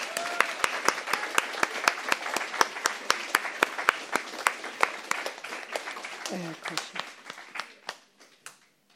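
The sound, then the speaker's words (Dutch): Rhythmic applause from a church audience for a small orchestra at a service: many sharp claps in a steady, even beat, fairly loud, with a voice briefly heard near the end as the clapping thins and fades out. “Voilà, dat is al een mooi orkestje. Applaus.”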